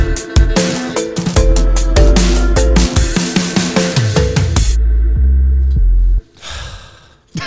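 Someone heavily out of breath from exertion takes a single deep, rasping gasp just after a stretch of loud, beat-driven music cuts off, then the music briefly resumes.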